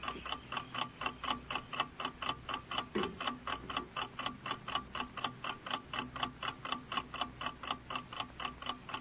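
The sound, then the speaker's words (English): A clock ticks in a fast, perfectly regular rhythm of crisp, faint clicks, many in a row with no other sound around them. “Hear it ticking. Ticking your life away. It's ticking your life away.”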